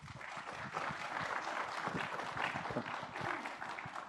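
Audience applause welcomes a couple of guests onto a stage, a fairly soft, continuous wash of many hands clapping that stays level throughout.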